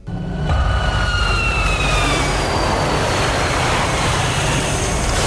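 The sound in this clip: A loud, dense roar from a sound effect in the latest Mad Max film, with a few whining tones that slide gently downward early on before fading into a sustained, engine-like rumble that persists to the end.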